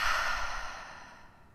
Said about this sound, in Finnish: hengitä syvään sisään nenän kautta ja suun kautta ulos.